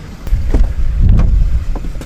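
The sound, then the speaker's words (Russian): A car pulling away from a shop, a steady low engine rumble with wind buffeting over it and a few faint knocks. “Сейчас мы отъезжаем от третьего по счету магазина. Направляемся дальше. Поехали.”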